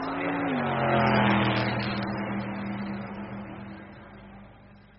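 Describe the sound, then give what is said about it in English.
Race car engines rev just before the start of the 31st Palmia race. A steady, mid-pitched engine roar dips in pitch early on, then holds and slowly fades, with no voices. “Gentlemen, this is Billy McCluskey from Palm Springs reporting for Embassy Sports of America. 20 seconds to the start of the 31st Palmia race.”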